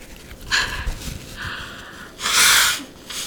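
A woman crying and sniffling, with a few short, breathy sniffs followed by a longer, louder noisy sniff or exhale near the end, and no speech.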